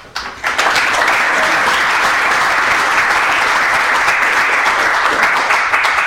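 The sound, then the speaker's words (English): An audience applauds a guest speaker at a lecture event with loud, dense, continuous clapping that builds within the first half-second and then stays strong and even. “please join me in welcoming Stig Abel.”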